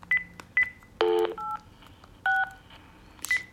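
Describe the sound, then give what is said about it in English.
Telephone keypad tones as a number is dialed: a few short single beeps and steady dual-pitch tones, spaced irregularly over a low constant hum, with no talking. “Helps if you dial the number correctly.”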